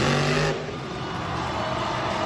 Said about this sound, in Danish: Havde du godt gættet, hvad det er, der larmer sådan? Det er da en monstertruk.